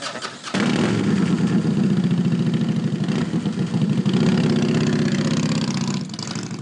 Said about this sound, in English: Riding around on a cool Texas night, it's pretty nice. You're good to go? Out there, you're just a badass on a bike, and that's it.